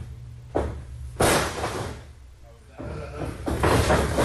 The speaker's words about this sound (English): Here, scoop slam to Flair.